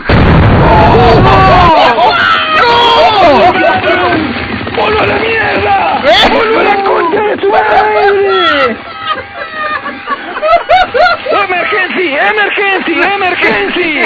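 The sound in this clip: A loud explosion as someone blows up, a heavy booming blast that fills the opening seconds. Many voices then shout and yell excitedly in Spanish over a busy background.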